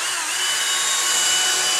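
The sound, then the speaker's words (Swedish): Floor sanding machine working on the floor of a large dining and dance hall, a continuous, loud, high-pitched grinding whine that holds steady throughout. “Golvet i den stora matsalen och danssalen slipas och får ny lyster.”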